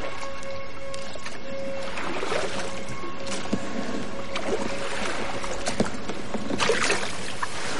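A small boat reaching the shore: water sloshing and lapping against the hull, with occasional hollow knocks and splashes over a constant wash, heard without voices.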